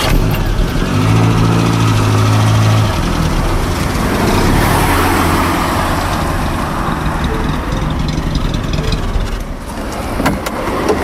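A Fiat taxi waiting at a rank idles with a steady low hum, then pulls away as the engine rises into a louder, broad rumble that stays strong to the end.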